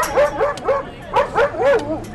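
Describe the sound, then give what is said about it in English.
A guard dog barks at the main entrance of a congress building during security checks. It gives several short, high-pitched yelping barks in two quick bursts separated by a brief pause. “At the main entrance of Congress in downtown Bogotá, a guard dog and a half dozen police officers do a thorough check of all who enter.”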